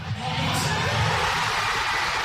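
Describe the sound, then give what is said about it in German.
Thousands of football fans in central Oslo cheer Norway's late second goal against Brazil, a dense sustained roar of shouting and whooping that holds steady throughout. “Schon als Norwegens Mittelstürmer Erling Haaland in der 90. Minute sein zweites Tor gegen Brasilien schießt, ist der Jubel bei den tausenden Fans im Zentrum von Oslo groß.”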